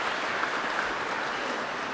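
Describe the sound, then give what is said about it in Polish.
Sustained audience applause: a dense, even wash of many hands clapping at steady loudness from start to end, with no single voice standing out. “Także wielkie, wielkie brawa dla was za taką kreatywność.”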